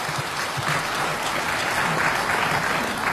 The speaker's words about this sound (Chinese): 您听听这掌声